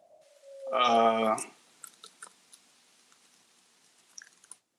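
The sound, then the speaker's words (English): Typing after a short voiced sound, heard as a few faint, scattered key clicks spaced irregularly across the rest of the moment. “Let me type that.”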